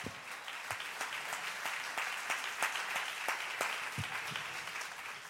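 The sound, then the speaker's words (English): Congregation clapping hands during a sermon on gratitude, a fairly soft, continuous patter in which many distinct sharp claps stand out over about five seconds. “Everybody should clap their hands and say,”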